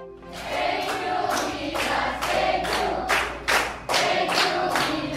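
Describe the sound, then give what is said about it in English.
Young Filipina basketball players clap and cheer to welcome home the gold-winning national women's team from the Southeast Asian Games, with many regular bursts of claps and thumps over a lively crowd din. “What you're hearing are young Filipina basketball players welcoming the Gilas Pilipinas women home after they won gold at the 31st Southeast Asian Games.”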